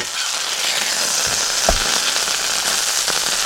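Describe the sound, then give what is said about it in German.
A barbecue grill being fired up sizzles with a steady, dense hiss, broken by occasional small crackles and pops, with no voices. “Ja, der Grill wird wieder angeschmissen.”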